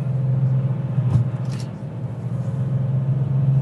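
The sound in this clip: An older vintage car drives steadily: a continuous low engine drone and road rumble, with a brief thump near the middle and no voices.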